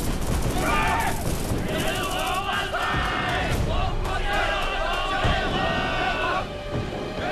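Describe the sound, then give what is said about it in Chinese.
Gunfire rings out in a battle as Japanese soldiers charge from a hillside graveyard carrying bayoneted rifles: scattered sharp shots punch through a dense, continuous din, with many voices shouting throughout. “同志们，注意隐蔽，日本鬼子冲出乱坟岗，听我命令，一起开火。”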